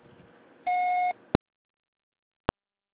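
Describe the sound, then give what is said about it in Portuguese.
Answering machine beep: one steady electronic tone lasting about half a second over faint background noise, followed by two sharp, brief clicks. “Deixe seu recado após o sinal.”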